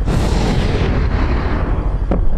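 Weapon fire aimed at rooftop targets: a loud, sustained booming rumble with one sharp crack near the end. No one speaks.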